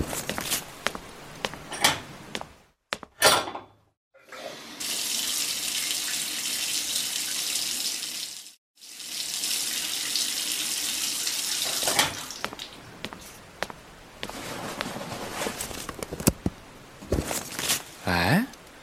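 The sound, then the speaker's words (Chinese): Shower water runs from the tap in two long, steady stretches split by a brief pause. Clunks and knocks are heard before and after the water. “哦，好，那我先去洗澡。”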